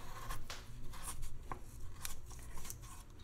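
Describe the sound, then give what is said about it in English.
A knife cuts lengthwise through a carrot, giving a few faint, crisp clicks and crunches spaced irregularly over a low background hiss, with no talking. “Why is cutting a carrot lengthwise so difficult?”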